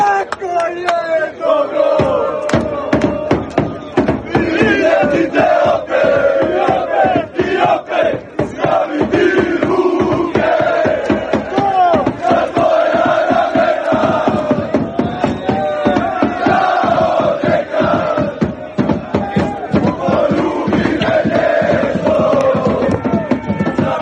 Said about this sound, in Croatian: Bez obzira na to bude li dočeka ili ne, srebro bi se trebalo smatrati velikim uspjehom, a to su dokazali hrvatski navijači koji su i nakon poraza nastavili pjevat.